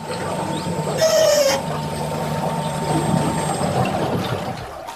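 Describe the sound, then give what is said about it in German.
An electric whisper boat moves on water in Holland, giving off a low, steady hum with a soft wash of water that holds at an even level throughout. “Das ist der Sound von einem Flüsterboot.”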